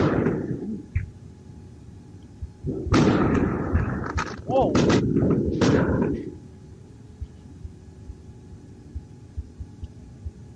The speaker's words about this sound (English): Yeah, some of those were some massive mortars. Those are some M80s and things.